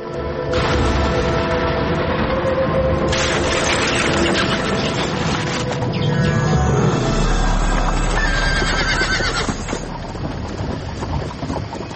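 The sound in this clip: A horse neighs and whinnies over the steady clip-clop of hooves pulling a family's horse-drawn carriage on a dark, foggy night. The hoof beats and snorting cries stay loud and continuous throughout, with no talk.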